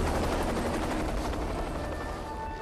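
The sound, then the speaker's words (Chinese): A Mi-8 transport helicopter lands on a hilltop at dusk, giving a loud, steady, continuous rotor and engine roar that holds evenly throughout. “黄昏，一架米八运输直升机降落在导演部外的山丘上，”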